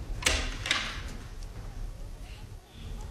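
Door being opened in a dramatic scene: two sharp clacks close together at the start, then a low, rumbling noise that continues quietly to the end.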